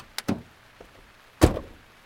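Car door as a woman hurries into her car on a dark, rainy evening: a couple of quick latch clicks, then a solid slam with a short decay, fairly faint overall.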